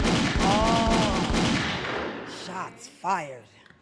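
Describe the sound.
A sound effect of gunfire: a dense burst of rapid shots roars for about two seconds, then fades away, with brief voice-like sounds near the end.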